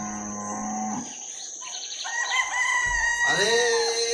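Cattle mooing at early-morning milking time on a farm, a low drawn-out moo at the start, followed by a rooster crowing in wavering, harmonic calls that rise and fall, fairly loud throughout.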